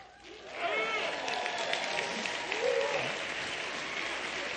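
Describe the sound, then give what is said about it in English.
Marines in an audience shout their rousing Marine Corps call, several voices rising over steady applause from the crowd after a quiet start, then the mix of cheering and clapping continues at an even level. “How many of you know what that was that you heard there? The Marine Corps mating call. That's exactly what it was.”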